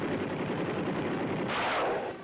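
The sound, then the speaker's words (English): Celebratory gunfire in Saigon on the day the communists won, a dense, continuous crackling roar of overlapping shots that swells brighter near the end. “The shooting on this day the communists won was not in a battle, but a celebration. Saigon had already surrendered.”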